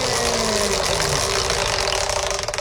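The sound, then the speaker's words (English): A prize wheel spins to pick the category in a trivia game, giving a dense, rapid rattle of ratcheting clicks. The clicks turn into distinct separate ticks near the end. “Let's see if I still have enough power to spin the wheel. Do you want a big spin or a little spin?”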